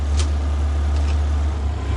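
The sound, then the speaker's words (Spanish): A car drives away from a house after a parting scene, its low, steady engine rumble holding an even level throughout with no clear fade and no voices. “mira cómo se aleja el coche.”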